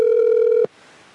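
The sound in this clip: A telephone dial tone after a call is cut off: a steady, loud, single-pitch hum with buzzy overtones that stops abruptly about halfway through, leaving only faint hiss.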